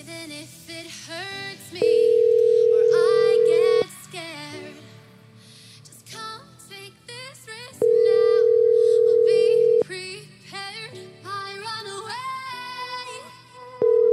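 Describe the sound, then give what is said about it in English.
A telephone line rings unanswered, sounding a repeating ringback tone: two long, steady, loud tone bursts of about two seconds each, a third starting at the end, with busier tonal sounds filling the gaps between them. “Pick up the phone, lady.”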